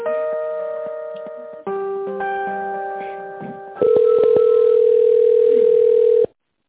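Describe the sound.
Telephone line tones play while a call is transferred: steady electronic tones that shift pitch in three stretches, ending with a louder continuous tone that cuts off abruptly.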